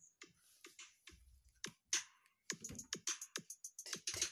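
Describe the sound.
Computer keyboard typing during editing work: many quick, irregular key clicks in short bursts with brief pauses, quiet throughout and with no talk.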